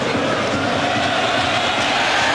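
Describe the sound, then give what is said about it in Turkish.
Football crowd of national-team supporters applauding a player's effort at a match against Belgium, heard as a dense, steady, loud roar of massed clapping and cheering that stays even throughout. “Milli takımımız destekleyen taraftarlarımızdan da alkış alıyor Ferdi'nin çabası.”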